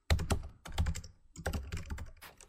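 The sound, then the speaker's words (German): Clicky keystrokes of someone typing on a computer keyboard, quick irregular bursts of taps separated by short pauses, fairly soft and with no voices. “Anhand des Tastenanschlags auf der Tastatur können intelligente Programme analysieren,”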